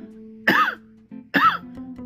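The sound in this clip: Two harsh, loud coughs from one person, spaced almost a second apart, over a faint steady background hum.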